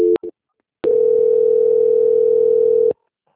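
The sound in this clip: A telephone line sounds during a call transfer: two brief beeps, then a single steady, clear tone held for about two seconds before it cuts off into silence.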